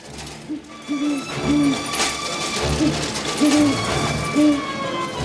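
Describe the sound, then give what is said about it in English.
An owl hooting in misty woods along a narrow path, giving several low, soft hoots spaced out over a steady rustling background. “An owl hoots at him as he passes by.”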